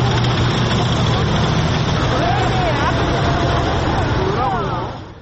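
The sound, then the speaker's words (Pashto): Heavy military vehicles and tanks roll past in a rainy parade in Seoul, a loud, steady engine rumble and roadway drone that holds constant and then drops away at the very end. “په پلازمینه سیول کې له باران سره سره سرتیری پوځي وسایت او درانی وسلې د نندارې لپاره تیر شول چې جنگي ټانکونه، درانه زغروال وسایت”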